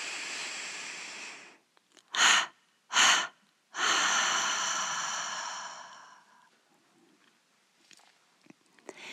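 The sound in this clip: A gentle inhalation through the nose during a meditation gives way to three exhalations through the mouth: two short, breathy puffs, then a final long breath out that slowly fades into quiet.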